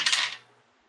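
Dice clatter briefly on a surface for an intellect roll in a tabletop role-playing game: one bright rattle that dies away within half a second.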